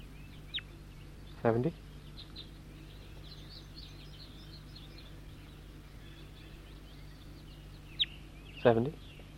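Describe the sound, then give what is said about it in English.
Bird calls come in two short, clucking bursts of stacked notes, far apart, with faint high chirps scattered between them over a low, steady hum. “Start recording bird 70.”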